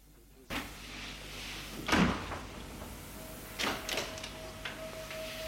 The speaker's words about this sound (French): La porte du salon s'est ouverte.